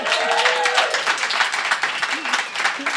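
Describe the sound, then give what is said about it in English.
A live audience at a South by Southwest event making as much noise as it can, with loud continuous clapping, cheering and whooping voices throughout. “So audience, can you make a little bit of noise, like as much noise as you can make?”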